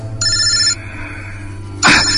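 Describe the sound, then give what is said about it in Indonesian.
Mobile phone ringing with an incoming call: a bright electronic ring with stacked harmonics sounds for about half a second, then a louder, noisier burst starts near the end, all over a steady low hum. “Namun baru saja aku mau membuka handphone, ada telepon masuk dari Bato.”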